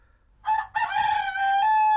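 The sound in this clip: A rooster crowing: one loud, long crow heard alone, opening with a short burst, then a brief break and a sustained, strained call to the end.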